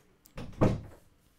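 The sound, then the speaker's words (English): A studio door swings shut with one soft, muffled thud, a brief closing sound alone in a quiet space. “When you come in, make sure to close the door. You got to keep the studio quiet.”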